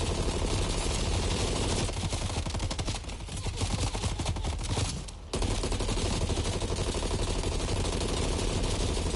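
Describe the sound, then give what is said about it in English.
Video game gunfire aimed at a tough enemy: rapid, continuous bursts of loud shots that form a dense wall of sound, with a brief dip just past the middle before the firing picks up again. “This guy takes a ton of shots.”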